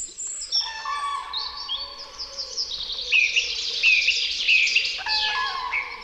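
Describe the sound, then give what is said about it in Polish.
Birdsong fills an April forest at dawn: many overlapping chirps, clear whistles and quick trills from several birds sound together in a lively, continuous chorus with no talk. “Najpiękniejszy ptasi koncert kwietniowego lasu usłyszymy o poranku.”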